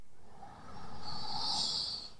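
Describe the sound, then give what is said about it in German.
A deep breath drawn in during a guided breathing exercise, inhaling the scent of oil rubbed between the hands: one long, steady, airy inhale lasting about two seconds, fairly loud and heard alone. “Und jetzt mit diesem Öl einmal für 2 tiefe Atemzüge einatmen.”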